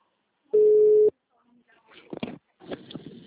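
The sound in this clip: A telephone busy tone after a dropped call, heard as a single steady mid-pitched beep lasting about half a second, followed by faint voices.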